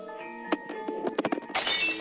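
A drinking glass is knocked and gives a sharp clink with a lingering ring, then a quick run of rattling taps and knocks, followed by a brief burst of broad noise.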